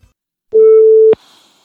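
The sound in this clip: A single steady telephone line tone sounds while a call is being placed, holding at one pitch for about half a second before ending in a click, followed by faint line hiss.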